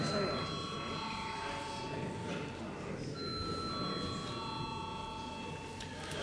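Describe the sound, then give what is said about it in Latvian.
A bell rings in a parliamentary chamber to call members to a vote, a faint, steady, sustained ringing that breaks briefly midway and then continues. “Paldies, lūdzu zvanu.”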